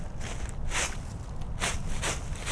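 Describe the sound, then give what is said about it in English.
Footsteps crunching along a hunting path through a wilderness forest in Iowa in turkey season, a few soft, scattered steps over a steady hiss of background noise. “is walking his hunting paths in a nearby wilderness area.”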